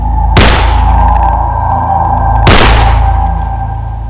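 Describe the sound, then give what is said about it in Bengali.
Gunfire aimed at a partridge during a hunt: two sharp, loud shots roughly two seconds apart cut through a steady low drone. “আমি সেই মাত্র চট করে সেই পার্ট্রিজ পাখিটিকে গুলি করলাম।”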